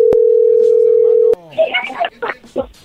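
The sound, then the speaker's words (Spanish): A telephone dial tone hums steadily for over a second, with two short clicks, as the phone is dialed again after a hang-up. A man's voice then talks briefly over the line. “Sí, ya colgó, pero ahí se está marcando otra vez.”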